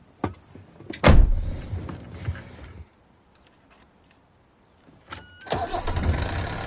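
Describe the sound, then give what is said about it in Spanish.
A car door shuts with a heavy thud, followed by a quiet pause, then the engine cranks briefly and catches into a steady running hum. “sube al coche, cierra la puerta y arranca el motor.”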